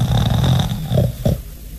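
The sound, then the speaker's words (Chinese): A storyteller's voice imitates a man's loud snoring: a low, rough rasping drone with a couple of short snorting bursts near the end. “没等邓宇说话，马武打上呼噜了”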